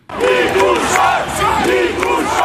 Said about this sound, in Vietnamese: Acclamé par la foule, Nicolae Dan parcourt à pied et tout.